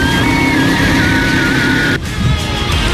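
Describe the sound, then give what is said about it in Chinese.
A go-kart engine revs hard on a track at a racing theme park: a loud, steady engine roar with a sustained high whine, dipping briefly near the end before picking up again. “去石家庄国际赛车运动主题公园开一圈卡丁车，油门一踩，肾上腺素直接拉满。”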